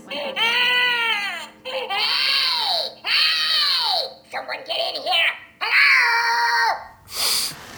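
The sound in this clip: A baby girl cries and fusses in several loud, wailing bursts, each rising and falling in pitch, separated by brief gasping pauses, with a sharper cry near the end.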